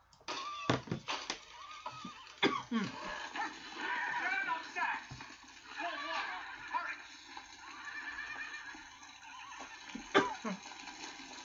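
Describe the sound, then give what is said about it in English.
Horses whinnying in a corral beside a burning barn and field: several shrill, wavering neighs come between and under urgent human voices talking. “you gotta get those horses out of that corral. Get them out.”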